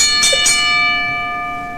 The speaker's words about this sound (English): ring the bell.